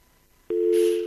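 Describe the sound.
A telephone busy tone on a call that fails to connect: after a moment of quiet, a single steady low-pitched beep starts abruptly and holds to the end.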